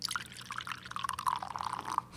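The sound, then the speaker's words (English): Liquid pours in a steady, gurgling trickle with small bright drips scattered through it. It stays fairly faint and continuous for about two seconds. “I don't know if somebody pissing or somebody that just peed in the sump pump.”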